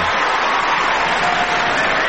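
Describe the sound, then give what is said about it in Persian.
Audience applause, a loud and continuous mass of clapping mixed with crowd noise, stays dense and even throughout. “بله تشویق خواهش میکنم. بله”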